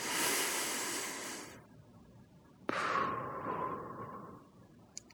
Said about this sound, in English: I take 2 or 3 deep breaths, recognizing God through His Spirit is present here with me. Breathe in for 5. Breathe out for 5.